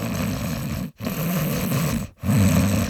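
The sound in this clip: A voice imitates a taxi driver's heavy, snoring-like breathing: three long, rasping, throaty breaths separated by brief silent pauses, loud and alone.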